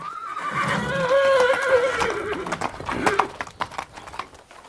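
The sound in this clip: A horse tied to a tree neighs in a loud, long whinny that wavers and falls in pitch, followed by a few scattered hoof stamps and shuffling sounds.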